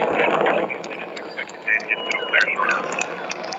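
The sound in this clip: Steady, broad roar of a rocket engine running at full throttle in a spaceflight video game, with a person talking over it.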